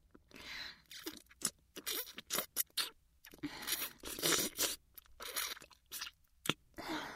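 Crunchy chewing of sweet food: many crisp, irregular bites and crunches in quick succession, moderately loud, with no talk over them.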